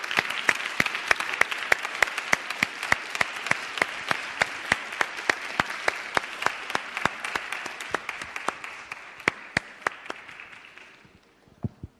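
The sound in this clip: Audience applause welcomes a speaker on stage. Sharp individual claps stand out over a softer wash of clapping, then thin out and die away near the end.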